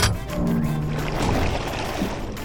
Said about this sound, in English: That otter opened the hatch! We're taking on water!